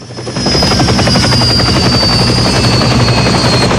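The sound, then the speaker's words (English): A helicopter with armed police aboard comes in to land, its loud, steady rotor thrum and high turbine whine swelling in the first half second and then holding constant. “Number 3 helicopter lands gently.”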